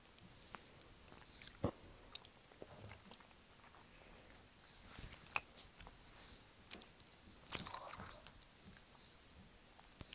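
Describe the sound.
Faint biting and chewing on a gummy snake: a few soft, moist clicks and sticky taps scattered over a low background hiss.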